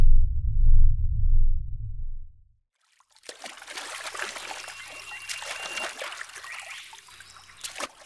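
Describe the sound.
Paddling through water: a steady wash of trickling and splashing that begins after a deep low rumble and a brief silence, continuing at an even, moderate level to the end.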